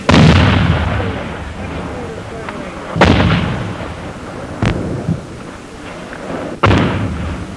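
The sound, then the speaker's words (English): Heavy booms of enemy mortar and artillery fire in a war drama. Four loud blasts come a second or two apart, each followed by a long rumbling decay. “There, the flash of enemy mortars on that hilltop. Artillery, call for Artie.”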